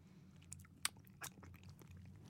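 Someone eats mangosteen fruit, soft and wet inside, and the chewing is faint. A few small crisp bites and clicks stand out above a low, steady background.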